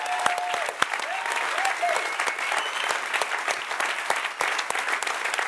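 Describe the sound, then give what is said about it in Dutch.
Audience applause at a conference gathering: dense, continuous clapping from a crowd, loud and steady from start to finish with no pauses. “Give them a hand. Kom op, geef ze een applaus.”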